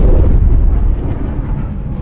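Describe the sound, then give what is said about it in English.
A Concorde supersonic airliner's sonic boom: a loud, deep rumble that fills about two seconds, heaviest in the low end and easing off slightly toward the end, with no voices. “That sound you just heard is sonic boom.”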